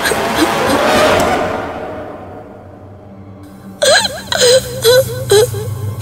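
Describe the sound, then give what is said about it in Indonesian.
A person cries and sobs in a dramatized scene: broken, wavering vocal bursts with shaky pitch arrive in the second half over a steady, noisy background. “Aku menangis. Aku terus menangis karena tidak tahu apa yang harus aku lakukan.”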